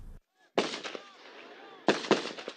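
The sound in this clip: Gunfire from a settlement security guard on a road outside the Palestinian village of Sa'ir, heard as loud, sharp cracking bursts that come in two clusters, with raised voices in between.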